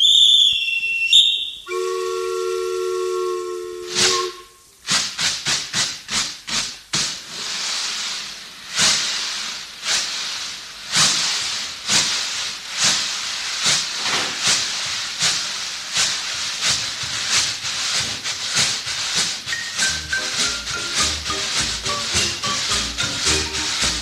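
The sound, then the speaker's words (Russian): A steam train departs: a shrill whistle sounds first, then hissing steam and rhythmic chuffing that begins with widely spaced beats and grows quicker and more regular. “Сели на поезд и поехали.”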